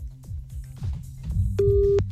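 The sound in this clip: A single brief, steady tone on a telephone line as a call is placed. It lasts under half a second over busier background sound.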